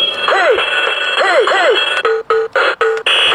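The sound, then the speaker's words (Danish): Electronic alarm from a novelty wall alarm clock shaped like a gorilla at a drum kit: repeated swooping chirps, then a few choppy bursts of a steady tone broken by short gaps, loud throughout. “Det er sindssygt fedt vækkeur på en eller anden måde.”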